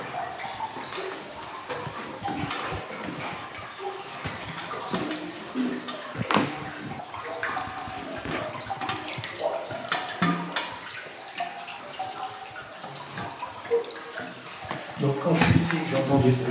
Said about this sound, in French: Ça me rassure, c'est que le trop-plein coule, c'est que ça va très bien.